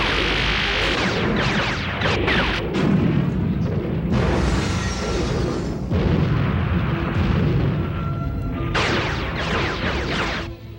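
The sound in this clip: Battle gunfire with heavy booming blasts as two armies clash in fierce fighting in a science-fiction war scene. Shots and explosions form a dense, continuous roar that fills the whole stretch without clear gaps.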